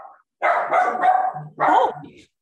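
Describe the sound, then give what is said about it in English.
A dog barks loudly in two quick bursts of rough, mid-pitched barks, with a short gap between them. “Sorry. That's my dog.”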